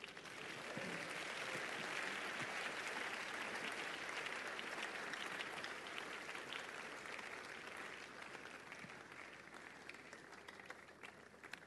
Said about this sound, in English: Come on, give the Lord a big hand of praise.